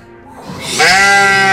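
A person imitates a sheep's bleat with one long, drawn-out, wavering cry that swells from quiet to loud and holds at full strength until the end.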